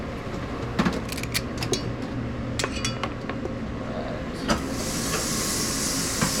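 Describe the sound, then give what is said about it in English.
Steady steam hiss from a high-powered restaurant steamer reheating pre-cooked brown basmati rice. It comes in partway through, over scattered clinking of dishes and cutlery in the kitchen. “So you're putting the rice in this, like, high-powered steamer. Yeah, I mean, normally at home you're gonna cook this and it's gonna be hot and ready. But at the restaurant, we pre-cook our rice, and then steaming rice is the best way to reheat it.”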